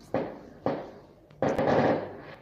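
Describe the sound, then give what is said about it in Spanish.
Fireworks rockets going off in three sharp bursts; the first two are short cracks, and the third is louder and longer with a rumbling tail that fades gradually. “Sí, son cohetes. No veo desde aquí, pero son cohetes.”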